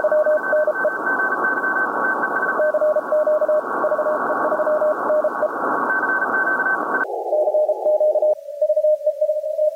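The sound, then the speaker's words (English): Two Morse code CW tones from a radio receiver keep sounding over steady hiss. When the IF width is suddenly narrowed, the higher tone and most of the noise vanish, leaving a single lower keyed tone to the end. “Notice how we start with two CW signals again, But as the passband suddenly becomes narrower using the IF width control, you'll hear only one.”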